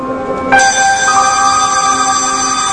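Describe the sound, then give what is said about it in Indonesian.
A school bell ringing for home time sounds as a loud electronic ringing tone that holds a steady pitch, jumps higher about halfway through its first second, then rings on without a break. “Lalu, bel pulang pun berbunyi.”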